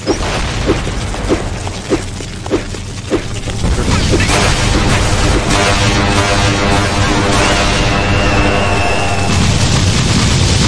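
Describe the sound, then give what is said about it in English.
A fireball's fire noise keeps playing in a video game because of a bug: a steady, dense crackling roar that holds from about three seconds to the end, after a few sharp, separate clicks at the start. “There's a bug, the fire noise is still playing. Object info, fireball at 29.”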